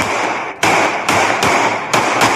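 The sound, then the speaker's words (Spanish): Five sharp, loud gunshots from a police officer's service weapon crack out in quick irregular succession, each a sudden blast with a short ringing tail. “uno de los uniformados toma su arma de dotación y dispara en varias oportunidades contra los hombres.”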